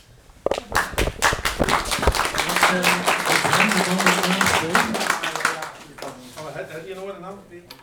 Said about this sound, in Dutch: En het cheer begint.